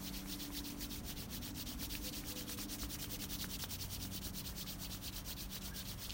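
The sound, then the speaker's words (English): Hands rub briskly together during a breathing exercise, making a quiet, continuous papery swishing of many quick, even strokes with no talk. “Exhale, rubbing the hands.”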